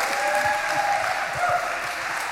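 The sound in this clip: An audience gathered for a lesson on the book of Proverbs applauds to welcome a speaker, with dense, even clapping that holds steady throughout and no talking over it.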